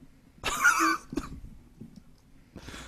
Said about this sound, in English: I started coughing in the middle of that, and I had to mute my microphone.